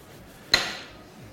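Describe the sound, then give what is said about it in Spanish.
A knife cutting food lands as a single sharp knock on a hard surface, followed by a short fading ring, alone against near silence. “Primero vamos a cortar por aquí. Y ahora vamos a cortar también por acá.”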